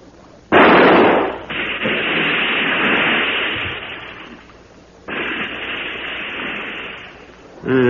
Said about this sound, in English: Yes, it's seen us. Well, I'll have to shoot. Keep the light steady.